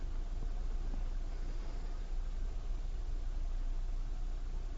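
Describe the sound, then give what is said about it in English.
Pumps and valves of a YSI IQ SensorNet P700 orthophosphate analyzer drawing liquid through tubes during an assembly check, a faint, steady low mechanical hum with a hiss above it. “When I start the cycle, what we will see is, one at a time, each pump and valve draw the liquid in.”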